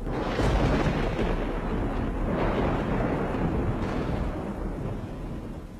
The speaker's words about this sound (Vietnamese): vừa lúc trên bầu trời tiếng sấm động rung chuyển.